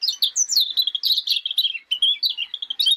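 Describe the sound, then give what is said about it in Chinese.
A myna bird calls in a tree, with a rapid, unbroken run of high, bright chirps and whistles, loud and alone. “八哥鸟听到黄勤咁样讲啊，急到佢喺树上边跳来跳去，跳来跳去”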